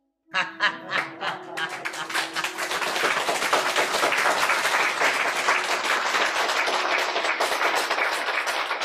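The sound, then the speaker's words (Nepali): An audience applauds at a yoga talk, starting with a few scattered claps that quickly swell into loud, sustained applause. “सबैले ठोकेको ताले ताली ठोक्नु भएको के बुझेर ठोक्नु भएको”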